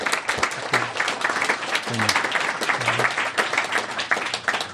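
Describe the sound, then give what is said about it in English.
Audience applause for a guest at the close of an evening conversation event, lively sustained clapping with bursts of sharper claps, continuing for nearly five seconds. “Let's give him a great big hand.”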